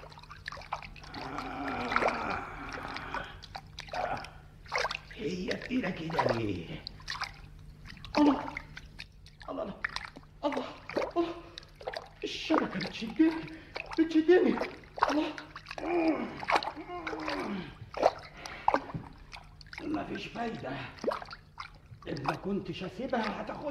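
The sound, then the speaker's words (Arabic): Water splashes and drips as fishing nets are hauled out of the sea in an Arabic storytelling drama. Irregular sloshing runs steadily beneath continuous spoken narration. “جعل أبو صير يجذب الشباك”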